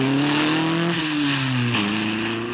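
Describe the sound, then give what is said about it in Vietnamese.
A car driving off: a steady engine hum whose pitch dips twice and then recovers. The sound stays loud and continuous, with no voices. “Xe chờ kìa, đi cháu, đi mà. Tài xế giọt lẹ đi.”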